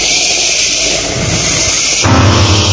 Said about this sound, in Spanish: Truenos.